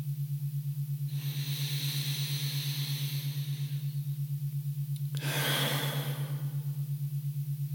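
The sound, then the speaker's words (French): A deep inhale and then a complete exhale during a meditation, both soft and breathy, set apart by a pause and lying over a steady low hum. “prends une grande inspiration. Et expire complètement.”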